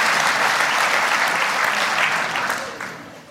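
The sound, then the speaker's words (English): Audience applause at a stand-up comedy show, cheering on a doctor in the crowd. Dense, steady clapping holds loud, then fades toward the end. “Let's hear it for Flavia.”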